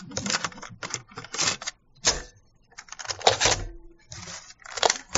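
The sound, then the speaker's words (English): Plastic clicks and rattles as a cassette tape is turned over in a recorder, coming in several irregular bursts of handling noise separated by brief pauses. “I'm just going to turn this tape over. We got all this high tech here.”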